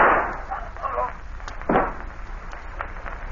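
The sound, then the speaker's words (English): A single sharp gunshot cracks in a radio drama, a brief loud burst set among voices and other low-level sounds. “Hey, put that gun down. What are you... This is a payoff, mister.”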